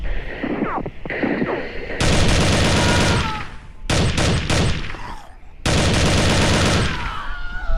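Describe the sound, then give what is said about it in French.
Loud automatic fire from an M4 rifle during a bank robbery, unleashed in three long, dense bursts of rapid cracks, with quieter scattered sounds before the first burst. “Bordel, mais c'est quoi ce flingue Ça, c'est un M4.”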